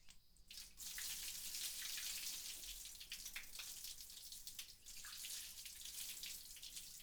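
Water being run flows in a faint, steady hissing rush. It starts after a brief quiet moment and continues evenly, with only slight dips in level.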